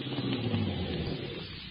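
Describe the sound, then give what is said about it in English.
A car pulls up and stops near an old church, heard as a faint, low engine rumble that eases off slightly toward the end, with no voices. “Oh, yes, there it is. Somebody just flashed the headlights. I'll pull up.”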